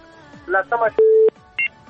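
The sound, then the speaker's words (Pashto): Telephone dialling tones as a number is keyed in on a call-in line: after a brief burst of voice, one long steady electronic beep and then a shorter, higher beep sound clearly. “یو شپېره به وټاکم.”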